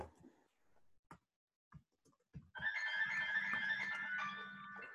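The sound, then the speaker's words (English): A jazzy, melodic phone ringtone follows a few short clicks and taps, then plays steadily and loudly to the end with bright layered tones over a low sustained note. “one second, let me chill that phone. Very jazzy. Nice.”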